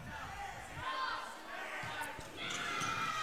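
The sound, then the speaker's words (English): Volleyball serve by Park Rapids late in a match, with a few sharp ball strikes over a steady crowd murmur. “Okay. Here we go. Park Rapids will serve it.”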